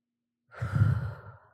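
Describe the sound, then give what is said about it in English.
A single deep breath during a guided meditation breathing exercise: one soft, breathy rush of air that swells and fades over about a second, heard alone with no talking. “Take a deep breath with me right now. Inhale.”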